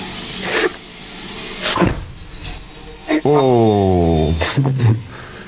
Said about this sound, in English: So it was a hard vertical crash. Yeah, this is why I wanted my audio to play, because I will. You can hear it here.